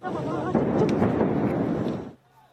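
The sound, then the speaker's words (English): Explosions from a heavy airstrike bombardment on Gaza form a loud, deep rumbling roar that holds for about two seconds before cutting off abruptly, with a voice audible at the start. “the war rages on, with the Israelis conducting their heaviest airstrike bombardment on Gaza yet.”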